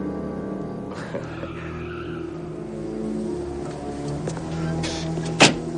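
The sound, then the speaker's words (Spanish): A stolen car rolls up and is loaded onto a tow truck in a 1990 police action film. A low engine rumble runs underneath throughout, and a sharp metallic clank sounds near the end. “Cuando el hombre abandona la cabina, el último coche sustraído está llegando al lugar y sube el automóvil al remolque.”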